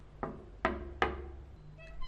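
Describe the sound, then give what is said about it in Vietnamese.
Three sharp knocks on a door, evenly spaced and crisp, each ringing out briefly before fading. “Bây giờ chị sẽ gõ cửa nhé.”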